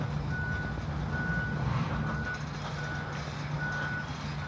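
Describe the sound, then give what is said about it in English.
Reversing beeps from a big backhoe digging in a gully: a steady series of evenly spaced, high, pure beeps over a constant low engine rumble and broad background noise. “They're digging it up. There's a big backhoe down in the gully.”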